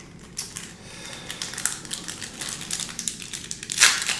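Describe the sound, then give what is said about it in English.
Crinkling of a 1990 Topps baseball card pack wrapper being torn open: many quick, dry crackles and crumples in an irregular run, ending in a louder rustling burst. “And then we'll go ahead and open our 1990 Tops pack.”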